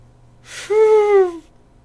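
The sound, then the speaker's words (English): A person forces air out with empty lungs: a short breathy rush turns into a strained, voiced wheeze that sags slightly in pitch and lasts under a second. “and you keep blowing, but nothing comes out because there's no air in your lungs”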